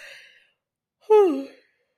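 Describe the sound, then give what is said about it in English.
A single Monday morning yawn, a short voiced exhalation whose pitch slides steadily downward, heard on its own. “Monday morning yawn.”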